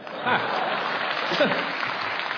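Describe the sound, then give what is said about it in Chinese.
Applause from the audience at the Deyunshe crosstalk comedy troupe's tenth-anniversary gala, a steady patter of many hands at moderate loudness, with voices talking over it. “哎，您这是要掌声？ 不不，我觉得这个掌声是献给你们德云社的。”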